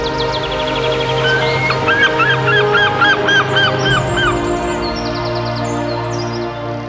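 Birds calling in the sky give many goose-like honks in a rapid, repeated series of harmonic calls, loud and steady throughout over a constant low drone.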